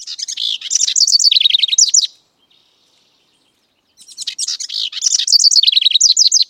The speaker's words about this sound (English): Buick's wrens start singing young, learning their songs first from their fathers just 2 or 3 weeks after hatching